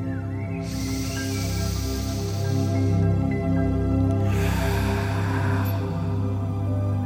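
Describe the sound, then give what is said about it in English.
Deep, deliberate breaths during a morning meditation: two long, airy rushes of breath, each lasting a couple of seconds, with a pause between them, heard over a steady, low musical drone. “Close your eyes and let's take 3 deep conscious breaths.”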